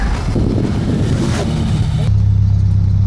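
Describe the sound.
A car engine straining and failing to gain revs while its wheels spin on snow mixed with sand. A low, rough drone sits under rushing noise, settling into a steadier, louder hum toward the end.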